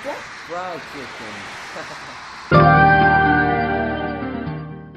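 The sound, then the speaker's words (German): A telephone rings with one loud bright ringing tone that follows a voice speaking. The tone sustains and slowly fades to the end. “Oh, die Museumsdirektorin ruft an.”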